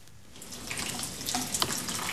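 Water pouring as flowers are watered: a soft, steady splashing hiss that starts faint and grows a little louder, quiet overall, with no voices.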